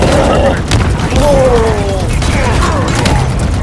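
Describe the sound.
Fusion coils blow up in Halo Infinite gameplay, heavy booming blasts and clattering debris mixed under excited shouting voices throughout.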